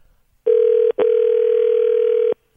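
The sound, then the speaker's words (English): Telephone line tone as a toll-free number is dialed: a steady, low electronic hum that sounds briefly, breaks for an instant, then resumes as one long, unbroken tone before cutting off. “All right, let's dial that one up.”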